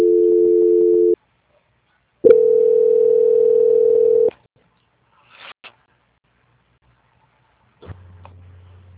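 Telephone tones during a call transfer: two long, steady beeps separated by a short silence, followed by a few faint clicks and then a low, continuous tone.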